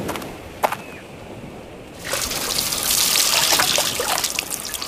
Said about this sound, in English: They've got a lot of gasoline in one can. Soak the inside, too.